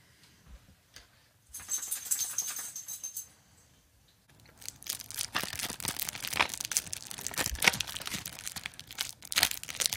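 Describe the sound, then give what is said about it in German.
Plastic packaging crinkles and tears as a new tape is unwrapped: a short, quiet burst of rustling, a pause, then a longer stretch of continuous crackling and crumpling. “Nee, ich packe nur ein Tape aus.”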